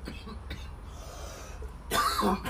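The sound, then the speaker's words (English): A man lets out a single harsh cough, a short, loud, rough burst that breaks through a low, steady background murmur near the end. “As you hear this man coughing over here”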